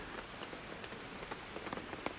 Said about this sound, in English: The first morning we woke up in the tent and it was raining really hard, and the rain sounded really nice.